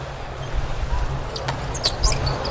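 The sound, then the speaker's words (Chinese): Float serve hit by the Chinese team in a volleyball match: a sharp, short slap of palm on ball rising above steady crowd noise and commentary. “这一轮发球啊， 中国队 王鹤斌的发球”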